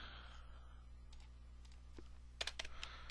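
Computer keyboard keystrokes for a cut-and-paste: a few faint, sparse clicks, then a short cluster of quicker taps near the end, with no voices over them.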